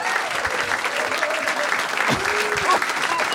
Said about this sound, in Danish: Giv en kæmpe stor hånd.